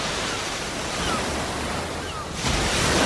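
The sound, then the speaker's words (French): Ocean waves on Earth wash in as a dense, hissing roar of surf, steady and broad, swelling louder near the end as a fresh break rolls through. “la NASA ménage son suspense et vous propose de comparer le bruit de vagues sur Terre”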